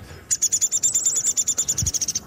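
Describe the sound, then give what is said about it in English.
Chatter of a downy woodpecker in natural undergrowth in Edmonton: a rapid, even series of many sharp, high-pitched notes that runs steadily for about two seconds at moderate volume. “Downy woodpecker. He sort of chatter to some extent too. And the house finches are chirp here.”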